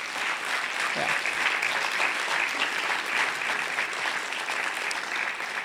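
Applause for a person being thanked: many hands clap in a steady, dense wash that stays even in loudness and continues throughout without a break.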